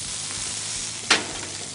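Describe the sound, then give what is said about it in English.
Onions sizzle as they are thrown into a hot pan of cooking food: a steady, hissing fry with one sharp, brief burst of crackling partway through as they land. “I'm just gonna throw the onions in here.”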